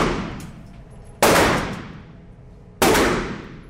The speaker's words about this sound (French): Ça, c'est le voisin qui tire, c'est pas lui.